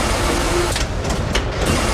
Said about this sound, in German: Ziemlich laut sind die Maschinen, die das Papier produzieren. Und ganz am Ende der Produktionskette werden die einzelnen Lagen zu einer Serviette zusammengepresst.